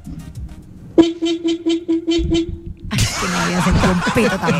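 A cheap, low-budget horn sounds in a rapid series of short, bright, pulsing toots at a steady pitch, then cuts off as a louder, harsher burst of noise takes over.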